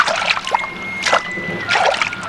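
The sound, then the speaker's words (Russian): Splashing and sloshing as someone wades knee-deep through water: a few bursts of churning water at a steady walking pace, fairly loud. “Утопая по колено в воде, они стали пробираться к заброшенному сараю за магазином.”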